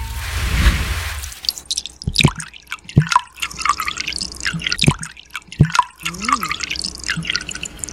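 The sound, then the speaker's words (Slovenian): Milk being poured, a gurgling liquid rush at first and then many irregular drips and small splashes that vary in loudness, with no voices. “Mleko, vlivanje mleka. To vlivanje mleka!”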